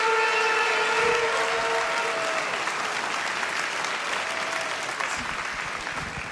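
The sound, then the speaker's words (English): A church audience at Maranatha in San Diego applauds to welcome a speaker, giving a full, sustained wash of clapping that eases slightly toward the end. A held musical tone sounds beneath the first half. “And I just want you to give him a big, warm welcome.”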